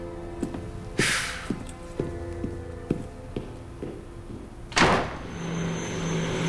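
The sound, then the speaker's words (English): Quiet ambience in an airport arrivals area: regular soft ticks over a low steady hum, broken by two brief hissing bursts like sliding doors opening. “enters an airport arrivals area.”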